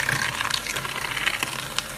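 A spoon stirs a batter of flour, cocoa and oil, making a continuous scraping, swishing noise with a few sharper clicks throughout.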